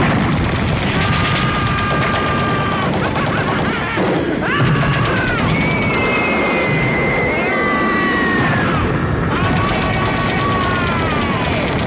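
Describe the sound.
Sustained, rapid gunfire, as in a mock enemy attack on a party, blasts without pause in dense bursts, mixed with crashing noise and a tonal musical layer.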